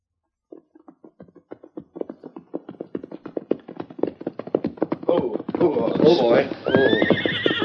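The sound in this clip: Horses' hooves clip-clop in a steady rhythm as riders arrive at a bank, the hoofbeats growing louder and denser, then a horse whinnies loudly with shrill, wavering neighs over the continuing hooves.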